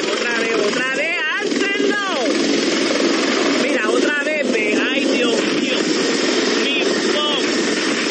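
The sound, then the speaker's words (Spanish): Helicopter flying low over the Sprat Bay beaches, its steady rotor and engine roar running continuously beneath a talking voice. “el helicóptero se acerca demasiado a las playas Sprat Bay y levanta todo a su paso.”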